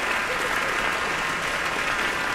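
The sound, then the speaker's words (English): An audience in a concert hall gives enthusiastic applause after a performance at a piano competition for young artists. The clapping is dense, loud and steady from start to finish. “Pianist Wilson Liu on stage now, accepting very enthusiastic applause from the audience here at Kulas Hall.”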